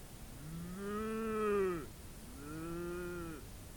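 A big cow moos twice, each a drawn-out, low, harmonic call that bends downward at its close. The first moo is longer and louder than the second, heard alone over faint background hiss.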